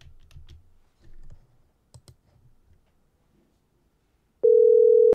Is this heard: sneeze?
no

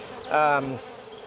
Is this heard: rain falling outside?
no

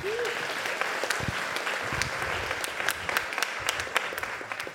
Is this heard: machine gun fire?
no

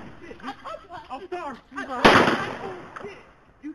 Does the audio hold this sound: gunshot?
yes

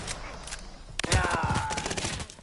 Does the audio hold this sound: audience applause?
no

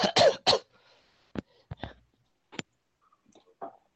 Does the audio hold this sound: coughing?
yes

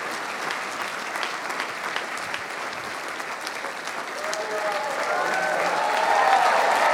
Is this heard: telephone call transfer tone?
no

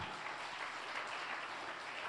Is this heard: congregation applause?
yes

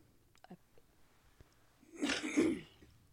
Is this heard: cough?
yes

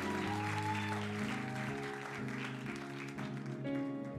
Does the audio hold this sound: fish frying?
no

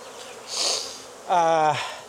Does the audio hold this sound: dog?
no

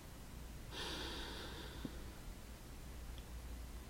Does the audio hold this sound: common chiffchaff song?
no

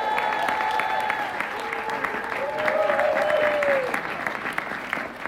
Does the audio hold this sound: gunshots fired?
no

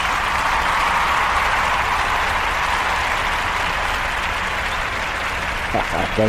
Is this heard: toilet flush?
no

